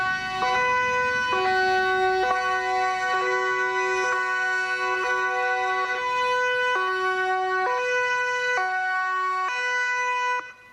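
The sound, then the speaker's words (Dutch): Police sirens sound as a wake-up alarm: a loud two-tone siren steps back and forth between a high and a low note in a regular repeating cycle. It carries on without a break, then cuts off abruptly at the end. “De politie laat de sirenes afgaan als een soort wekker.”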